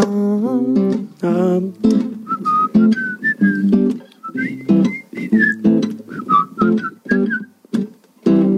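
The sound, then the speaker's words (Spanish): A person whistles a lively tune, a string of clear, bright notes hopping up and down in quick melodic phrases, with lower tonal sounds running beneath throughout. “Bravo. Qué bien silbado.”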